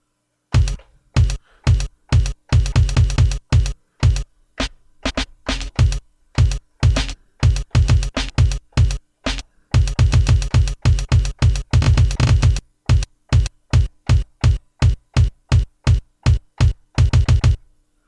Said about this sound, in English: So there's the final kick.